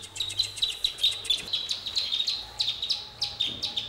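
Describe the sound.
Pied avocet chicks chirp in a rapid stream of many thin, high peeps. The chirps are fairly faint and repeat at an uneven but steady pace.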